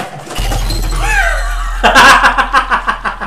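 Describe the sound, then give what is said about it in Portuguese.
Objects knocked off a small table land in a sudden loud crash with a shattering quality, followed by several rapid rattling bursts that fade unevenly, over a steady low hum. “Aí derrubou os coisas aqui que tava na mesinha dele.”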